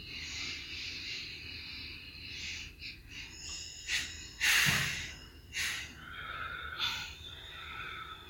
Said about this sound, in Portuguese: Estou soltando pelo nariz para vocês escutarem, mas podem soltar pela boca.